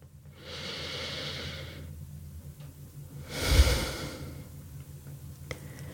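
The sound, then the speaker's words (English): A deep breath taken during a guided pause: two soft, airy breath sounds with no talk, a long steady draw followed after a short gap by a louder, shorter breath. “So take a moment now, pause, take a deep breath with me.”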